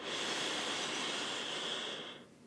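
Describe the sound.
A deep breath in during a guided writing and reflection exercise: one long, steady, airy intake lasting about two seconds that then stops abruptly, heard alone with no talk.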